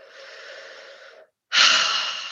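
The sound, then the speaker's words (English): A deep breath: a slow, soft inhale lasting just over a second, a brief silent pause, then a louder, breathy exhale that gradually fades. “I'm gonna deep breath.”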